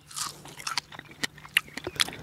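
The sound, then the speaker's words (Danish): Biting into and chewing a fresh strawberry: several short, crisp, wet crunches at an uneven rhythm, moderately loud, with soft moist mouth sounds between them. “nu vil jeg redde det her jordbær, fordi det skal nemlig ned i min mave”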